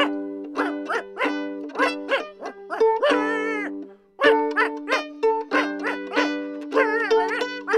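A dog barks and whimpers during a dog's stage performance in a concert show. Many short, pitched yelps come in quick rhythmic runs, mixed with a few drawn-out, wavering whines and a brief pause midway.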